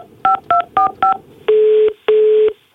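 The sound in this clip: Telephone dialing: four short, evenly spaced keypad beeps, then two longer, lower steady tones like a ringing signal, loud and alone with a brief gap between them.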